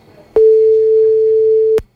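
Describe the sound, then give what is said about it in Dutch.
A single steady ringback tone sounds on an outgoing phone call: one clear, loud, even-pitched beep lasting about a second and a half, with quiet before and after. “Oh, de telefoon gaat weer over. Sorry, verkeerde knopje, maar hij gaat nog over, hè? Hij gaat nou over.”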